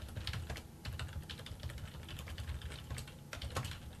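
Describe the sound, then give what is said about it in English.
Keys clatter on a computer keyboard as a name is typed into a website, a quiet, steady run of many rapid clicks with small pauses and no voices. “So, I type in the guy's name.”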